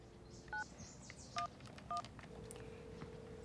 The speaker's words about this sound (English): He dials.